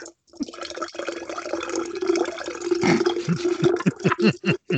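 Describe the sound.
Liquid is poured to fill a glass: a gurgling stream with a steady ringing tone, breaking into a few short glugging pulses near the end.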